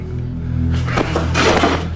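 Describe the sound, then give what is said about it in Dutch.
Chairs being thrown around a room during a police interrogation of a suspect: a few dull thumps and clattering bursts over a low steady hum. “Ja, de stoelen vliegen in het rond.”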